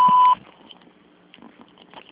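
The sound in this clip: A voicemail beep: a single short, loud, steady electronic tone at the start, then only faint low background noise.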